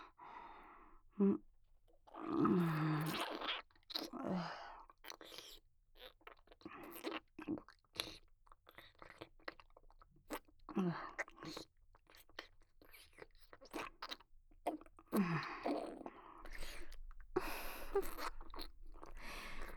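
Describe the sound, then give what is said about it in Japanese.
Soft, wet chewing of rice porridge during close-up mouth-to-mouth feeding: faint, irregular smacks and squelches, with occasional quiet breaths between them. “おいしいですか？口移しでおかゆを食べさせられるの。”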